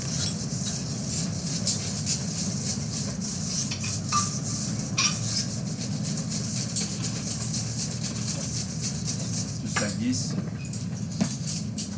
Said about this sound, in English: And then we add the flour. And we incorporate gently the flour to the sugar and yolk eggs and vanilla.